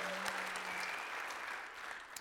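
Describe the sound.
A church audience applauds to welcome online viewers, a steady, fairly soft wash of clapping that runs unbroken from start to end.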